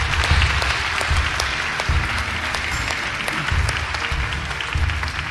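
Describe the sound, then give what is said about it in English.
Applause fills an Easter Sunday church service as the audience welcomes new believers, a broad, sustained wash of clapping at a steady level with no voices over it. “Can we put our hands together and welcome people into God's family?”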